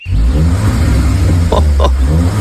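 Engine revving of a Renault Kardian car: a loud, steady low drone runs throughout, with two brief brighter surges near the end.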